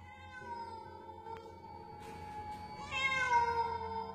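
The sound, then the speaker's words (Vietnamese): A black cat in a dark room lit by a flickering oil lamp gives a single drawn-out meow that swells loudly near the end over a steady tonal background. “Đột nhiên có tiếng méo một cái vang lên”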